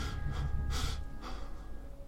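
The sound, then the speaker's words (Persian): Breathing in during an attempt to calm someone: a few short, airy breaths come in separate soft bursts, with a low rumble underneath. “آروم باش، چشماتو ببند و نفس بکش. نفس بکش همراه من.”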